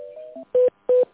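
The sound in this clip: Electronic telephone tones as an office call is transferred to another line: a few brief, slightly varied tones, then two short, evenly spaced steady beeps at the same pitch, with no talk.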